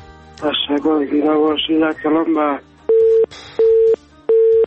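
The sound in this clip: A phone call to a radio station cuts off: a man speaks, then three short, even busy-tone beeps follow at a steady rhythm.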